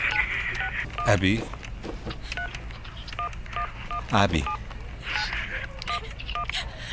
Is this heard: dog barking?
no